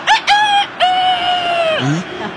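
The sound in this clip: Rooster crowing sound effect played as a jingle during live football commentary: two short loud bursts, then one long sustained crow that drops in pitch as it ends.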